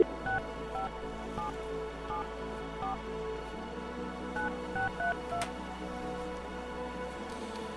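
A telephone number being dialed on a keypad: a run of many short, evenly pitched touch-tone beeps in quick succession over a steady low hum and faint background hiss, with no voices.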